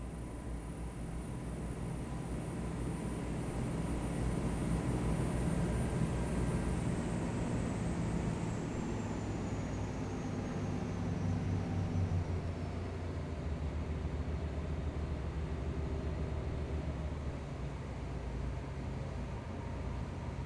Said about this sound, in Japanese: エンジン音変わったぞね。スピードも目に見えて落ちて。